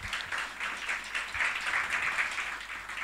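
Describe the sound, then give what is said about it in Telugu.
An audience at a talk gives sustained applause, a dense, even wash of clapping lasting about three seconds with no voices over it. “చప్పట్లు కొడదామండి ఒకసారి”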